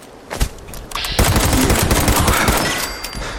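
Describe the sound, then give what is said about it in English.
Video game gunfire during a zombie fight: a couple of short sharp hits, then a loud, dense run of rapid shots lasting about two seconds before easing off. “Take that. Oh no, I'm out of bullets.”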